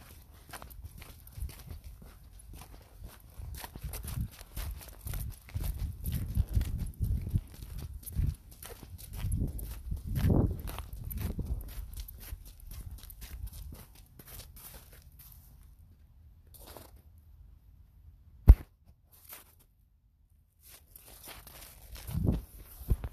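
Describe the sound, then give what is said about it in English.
A dog wearing boots walks along a sidewalk with some snow on it, making a soft, rapid patter of steps. The steps swell in the middle, then drop to near silence, broken by a sharp click and a final few taps. “This is the sound. My dog in his boots, walking on, like, I wouldn't say snowy sidewalk, but like there is some snow on the sidewalk.”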